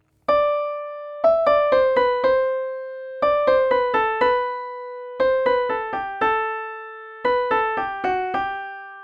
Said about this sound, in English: Here's an example of a simple sequence that gradually shifts downwards.